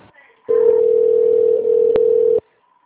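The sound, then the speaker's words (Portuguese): A steady, mid-pitched phone line tone plays while a call to a Nike customer service line is transferred, holding one unchanging pitch for about two seconds with a brief click partway through, then cutting off sharply. “A sua ligação será transferida para um de nossos atletas.”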